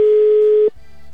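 Ringback tone of a telephone call that goes unanswered: a single steady, mid-pitched electronic tone holds for about two-thirds of a second, then cuts off to a low, quiet hum.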